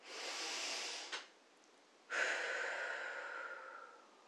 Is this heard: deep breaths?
yes